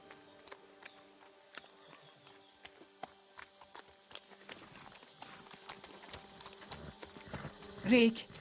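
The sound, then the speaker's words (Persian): Hooves of horses pulling a cart through mud clip-clop in an uneven, steady stream of sharp clicks, with a louder burst of noise near the end. “اسبا نمیتونن گاری رو از وسط این گل رد کنن”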